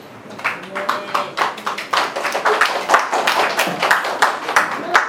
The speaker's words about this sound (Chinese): 这掌声都归于我们的上帝啊，荣耀归于我们的神。